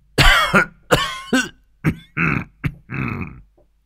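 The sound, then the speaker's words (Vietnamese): An elderly man's dry coughing, voiced by a narrator: a string of several harsh, throaty coughs in uneven bursts, loud and close, with no other talk. “Hoàng lão gia ôm ngực ho khan mấy tiếng”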